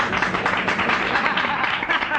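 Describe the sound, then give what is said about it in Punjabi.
Audience applause at a stage event after a cash prize is announced for a performer: dense, continuous clapping at a fairly even level throughout. “ਵੀ ਦੋਸਤੋ, ਮੈਨੂੰ ਗੱਲ ਦਾ ਬੜਾ ਅਫਸੋਸ ਹੈ ਕਿ ਇਹਨਾਂ ਸੱਜਣ ਲਈ ਇਹਨਾਂ ਇਨਾਮ 'ਤੇ ਤਾੜੀ ਕਿਸੇ ਨੇ ਨਹੀਂ ਮਾਰੀ। ਮਿਹਰਬਾਨੀ ਕਰਕੇ ਤਾੜੀ ਮਾਰ ਦਿਓ।”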